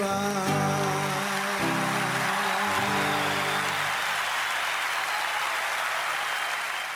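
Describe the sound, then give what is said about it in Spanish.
Applause after a song: the last sustained notes of the music fade over the first three seconds while dense, steady clapping rises and then carries on alone to the end. “Ahí están los aplausos”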